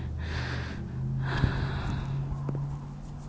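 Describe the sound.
Soft breathing: slow, gentle breaths that are faint and steady, with no talking over them.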